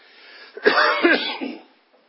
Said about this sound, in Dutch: Excuus voor mijn hoesten.